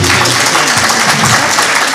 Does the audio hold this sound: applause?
yes